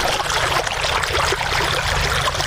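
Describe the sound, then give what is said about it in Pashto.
Water gushing steadily from deep wells, raised by farmers with solar panels and machines in Sayed Abad district, Maidan Wardak province; a dense, continuous splashing rush at even loudness throughout, with no voices. “دا د میدان وردګ ولایت په سید آباد ولسوالۍ کې د ژورو څاګانو اوبه دي چې بزګران یې د لمریزې هندارو او ماشینونو په مرسته راپورته کوي.”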